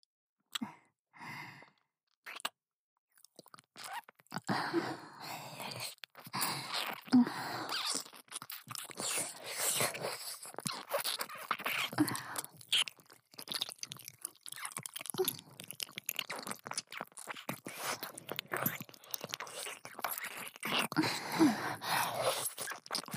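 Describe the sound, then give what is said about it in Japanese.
ASMR kissing and mouth sounds are made on the listener's ear: many soft, wet smacks and breathy sounds in irregular succession. They begin with a few isolated sounds, then become nearly continuous and stay quiet throughout. “ご主人様の愛おしいお耳に心を込めて口づけさせてください。”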